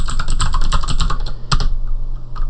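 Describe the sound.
A password typed on a computer keyboard to unlock a backup repository: a rapid run of many crisp keystrokes, then a short lull before one last isolated key press.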